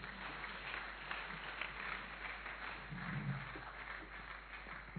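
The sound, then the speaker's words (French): A church audience applauding during a French-language worship service, a soft, dense, continuous patter of many hands clapping that holds steady throughout. “Est-ce que nous pouvons encore acclamer Jésus?”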